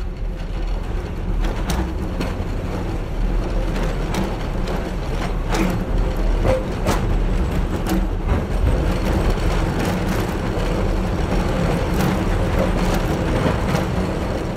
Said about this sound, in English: I mean, we just mic'd these trolleys to death and we just ran them.